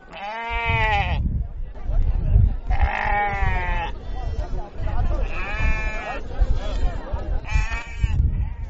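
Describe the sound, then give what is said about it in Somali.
Sheep and goats bleat repeatedly at a busy livestock sale yard in Hargeisa, crowded with animals ready for export. The calls are loud, wavering and spaced a second or two apart over a rumbling background of crowd noise. “Waxaa buuxa xoolo tiro badan oo diyaara dhoof.”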